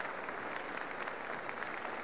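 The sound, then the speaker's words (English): Audience applause fills Severance Hall as the conductor of the Cleveland Orchestra returns to center stage after a Mendelssohn performance: a dense, steady wash of many hands clapping, even in level throughout. “Now Mr. Sell is coming back to center stage to accept the applause of the Severance Hall audience.”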